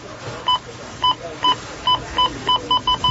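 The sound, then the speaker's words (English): A store checkout scanner beeps many times: short, high electronic beeps that come faster toward the end, over a low background hum. “Oh, it's Rona week when the checkout sounds like this.”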